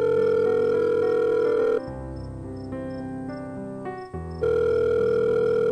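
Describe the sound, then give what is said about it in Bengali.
Electronic ringing tone of a mobile phone call being placed late at night: a loud, steady tone that drops to a quieter, differently pitched stretch midway, then returns to the original tone. “তাড়াতাড়ি ফোনটা বের করে, call করে আর্যকে।”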